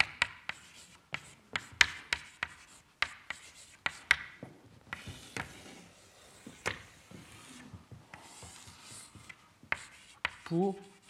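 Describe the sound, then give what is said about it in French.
Writing by hand during a physics lecture: many quick, sharp scratching taps in an irregular rhythm, quiet overall, with a brief voice near the end. “cette relation que j'écris ici”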